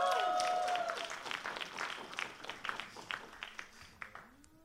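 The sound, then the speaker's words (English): Audience applause and clapping welcoming a daughter and mother onto a stage. The clapping starts dense, then thins into scattered, distinct claps. A faint tonal ring is heard at the very start. “Can you give them a big, big hand here in this place right now?”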